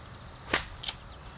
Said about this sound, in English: I heard that. He caught the trees.